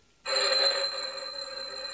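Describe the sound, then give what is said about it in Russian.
A telephone rings in a steady, high electronic tone. It starts abruptly after a brief quiet moment and keeps sounding to the end with no voices. “Это не в передней. Это телефон.”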